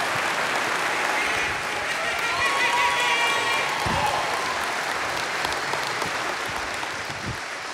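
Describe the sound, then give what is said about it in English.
Audience applause welcomes a performer to the stage, a dense, steady clapping that holds at full strength for about eight seconds and eases off only slightly at the end. “Put your hands together and welcome my friends Willie Robinson to the stage.”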